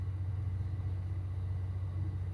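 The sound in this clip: Deep, steady engine rumble of a locomotive-hauled train on a non-electrified line. A constant low drone with a strong hum at the bottom holds unbroken throughout, with no voices.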